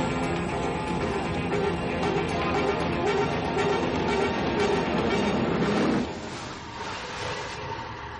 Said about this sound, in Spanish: El metro empieza a entrar en la estación y ella mira distraída en dirección a las vías. La corriente del convoy mueve sus rizos pelirrojos. Finalmente, el metro llega a su altura.